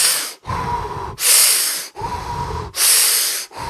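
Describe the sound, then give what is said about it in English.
Deep, slow breathing through the nose, with loud airy hissing that alternates between inhales and exhales. About three full breath cycles are heard, separated by short pauses. “is the first thing we want to start doing is taking deep breaths. Even better, even through the nose is actually better.”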